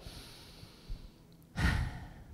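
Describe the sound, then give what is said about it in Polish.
A person takes a big, deep breath: a soft, faint airy inhale and then one louder breathy rush of air, heard alone. “taki wielki, głęboki oddech”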